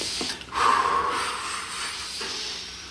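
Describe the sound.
Deep breathing from a person told to relax and breathe: a loud, airy exhale swells early, then settles into a steady, soft breathy hiss with no talk.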